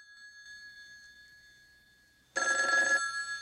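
A telephone rings beside a bed: a faint, steady tone holds at first, then a sudden loud, bright burst of ringing fills the second half. No voices are heard.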